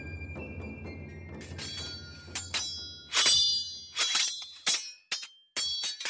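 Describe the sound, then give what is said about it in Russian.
A heavy blade strikes flat against a sword, giving several sharp metallic clangs with ringing tails. The clangs come in irregular bursts, each one loud and bright. “Тяжелый клинок обрушился плашмя на меч господина Дрона”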